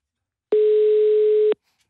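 A telephone ringing tone on an outgoing call: one steady, mid-pitched beep lasting about a second, sounding alone on a silent line.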